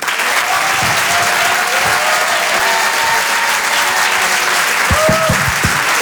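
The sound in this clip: Audience applause with cheering welcoming a comedian on stage at the Apollo comedy venue, a loud, continuous wash of clapping with voices rising through it.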